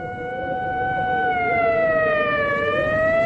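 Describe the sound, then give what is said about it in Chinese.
An ambulance siren approaches from afar along a quiet street: a sustained, wailing tone with strong overtones, slowly gliding in pitch and dipping near the end, growing slightly louder over a low rumbling background. “远处突然响起救护车的声音，由远及近，声音越来越大，救护车呼啸着向小街深处驶去。”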